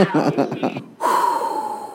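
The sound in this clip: A deep breath follows a short burst of voice: one long, airy, breathy inhale that holds steady and slowly tapers off.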